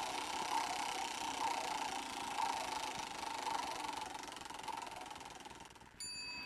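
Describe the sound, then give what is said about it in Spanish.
A prize wheel of fortune spins in a steady whirring, rattling rush that holds an even level, with soft ringing pulses recurring, then a clear ringing tone enters near the end. “Ahí está la rueda girando, qué nervios.”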